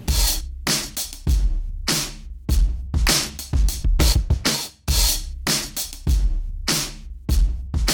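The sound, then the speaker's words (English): A drum loop from a sample pack plays alone: punchy low kick hits under bright, splashy cymbal and hi-hat washes in a steady, repeating groove, loud and unbroken throughout. “And this one of the loops actually from that pack just sounds killer. So the loop by itself sounds like this.”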